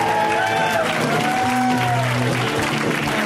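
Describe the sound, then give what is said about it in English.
Loud, continuous audience applause for a stand-up comedian, a dense even wash of clapping that holds steady for the whole stretch. “Let's hear it from Mr. Anthony Jeselnik, guys. Give it up for Anthony!”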